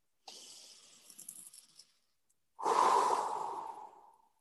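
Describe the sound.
Slow breathing alone: a soft, airy inhale lasting over a second, a short pause, then a louder, fuller exhale that fades away gradually.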